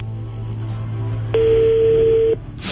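A telephone call is being dialed: one steady, mid-pitched electronic tone sounds for about a second over a low hum. A burst of hiss follows right after it.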